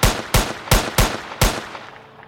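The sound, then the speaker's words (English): Gunshots from a British-issue Smith & Wesson .455 six-round revolver fired rapidly at close range: five sharp, loud cracks in quick, slightly uneven succession, each with a short ringing decay that fades after the last shot. “Clutching a British issue Smith & Wesson .455 caliber 6-round revolver, Udhem dashed forward, and from just 18 inches away, he fired 6 quick shots.”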